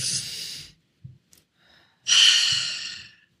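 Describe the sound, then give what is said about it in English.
A deliberate deep breath: two long, airy rushes of air, the second louder and fuller, separated by a pause with a few faint small clicks. “I'm going to ask you to just take an intentional deep breath in.”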